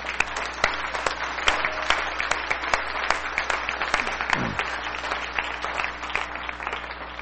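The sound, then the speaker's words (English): An audience applauds during a church service: dense, continuous clapping from many hands, steady in loudness throughout, with no talk over it. “So go ahead and give the Lord an applause because he's worthy of it.”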